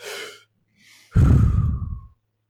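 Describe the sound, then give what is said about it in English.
A person takes a deep breath: a short breath, then a faint one, then a longer, louder rushing breath with a heavy low rumble. No talking is heard. “Take a deep breath. I'm trying to breathe. You gonna let me breathe? I'm gonna breathe, all right?”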